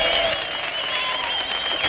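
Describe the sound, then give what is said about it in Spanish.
Loud studio audience applause at a Spanish radio show, dense, steady clapping that holds an even level for two seconds with no talk over it. “Hoy tenemos un público de 5 Jotas que suena así de fuerte.”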